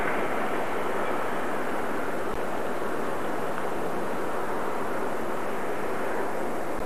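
A passing train gives a continuous broad roar of wheels and engine that holds steady and unbroken throughout, with no voices over it.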